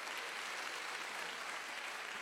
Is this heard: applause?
yes